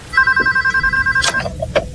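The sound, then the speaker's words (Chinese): A telephone ringing with a rapid, trilling electronic bell that sounds loudly for about a second, then stops, followed by a few sharp clicks. “当天晚上，凯迪的女儿丹尼尔便接到了一个陌生男子打来的电话。”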